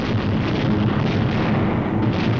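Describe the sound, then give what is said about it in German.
Explosions and fires during the wartime bombing of Nuremberg form a dense, steady roar, a loud continuous rumble with no distinct separate blasts. “Explosions and fires are sucking the oxygen from the air.”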